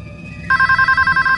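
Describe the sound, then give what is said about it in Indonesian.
An office telephone rings: after a brief low hum, a loud electronic ring starts abruptly and pulses as a rapid, steady high trill to the end. “telepon kantor berbunyi.”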